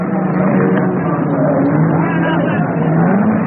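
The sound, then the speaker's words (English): Race cars at the Le Mans endurance race, a continuous, muffled engine roar with a dull, band-limited tone and gently wavering pitch, holding at a steady loudness throughout. “Listen to the sound of Le Mans.”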